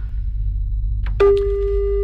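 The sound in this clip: A telephone call tone during a phone-in game: after a low hum and a few faint clicks, a single steady tone begins and holds, unbroken, to the end.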